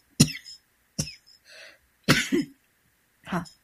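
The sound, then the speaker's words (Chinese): A person coughing during a live program: a few short, harsh coughs in separate bursts with brief pauses between them, heard alone without talk. “因为这是现场节目，真的就是突然就想咳嗽那么两声啊，大家多多的担待一下。”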